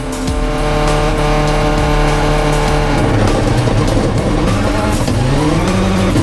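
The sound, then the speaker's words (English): A Subaru rally car races flat out on a fast stage, its loud, sustained engine roar holding a steady note before the pitch shifts midway, with no voices over it. “The number 75 Subaru is sweeping the road again.”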